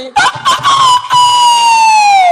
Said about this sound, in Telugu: ఈ దొంగ కిలాడి పుంజు రాత్రి 1 గంటప్పుడు ఒక దొంగ కోత కోస్తుంది